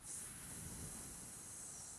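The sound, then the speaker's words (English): A very quiet, steady hiss of breath is pushed out between the tongue and teeth during a meditation breathing exercise, held evenly for about two seconds with no break. “if you just place your tongue between your teeth to create hissing noise”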